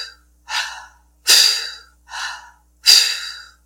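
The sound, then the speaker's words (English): Forceful exhales and passive inhales through the mouth during a breathwork exercise, in an even rhythm. Softer, shorter inhales alternate with two sharper, louder exhales that fade gradually. No talk is heard. “an exhale, forcing the air up and out, really contracting that belly around the exhale through the mouth, and then a passive inhale back through the mouth”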